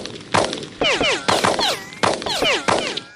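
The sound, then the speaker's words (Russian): Rapid gunfire from police rifles, many sharp shots in quick succession, with falling whistling tones streaking between the cracks, loud and alone. “Послышались выстрелы. Вокруг засвистали пули.”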